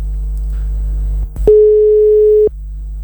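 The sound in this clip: A telephone tone after a call is cut off: a brief click, then a single steady tone lasting about a second, over a loud constant low hum.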